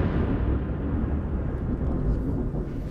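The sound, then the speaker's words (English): Deep, rolling boom of an Israeli airstrike explosion, a dense low rumble that holds steady and loud across the whole stretch without any clear separate blasts, with no voices. “We've been here for about 10 minutes, and there's been a wave of very intense Israeli airstrikes. We've just heard another one, and we can see the plumes of smoke rising”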